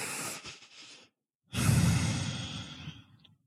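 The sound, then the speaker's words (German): Deep breathing during a guided meditation: a slow, airy inhale, a brief pause of silence, then a longer, fuller exhale that gradually fades out. “Mal tief ein- und ausatmen.”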